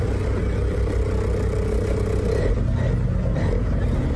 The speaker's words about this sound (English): So then he just drives away. Watch. Hit and run.